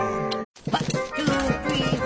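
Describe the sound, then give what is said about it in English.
Rhythmic marching steps, a sound effect of ants marching into a home, tramp in a steady, even beat after a brief silence that follows a tonal lead-in. “Hear that? That's what it sounds like when the ants go marching in to your home.”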